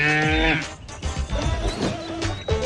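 A young calf moos loudly, a long harmonic lowing call followed by a few shorter, rougher moos.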